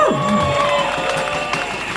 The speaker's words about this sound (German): Vorletzte Rede für heute, Bühne frei für Udine Kurt und ein dickes Hallo-Applaus.